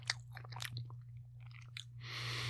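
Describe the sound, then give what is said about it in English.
Chewing a small edge piece of a cheese curd patty: faint, moist crunching and clicking bites in quick succession over a steady low hum, ending in a soft hiss. “tear off a little piece of this curd patty and try it by itself. This little edge piece.”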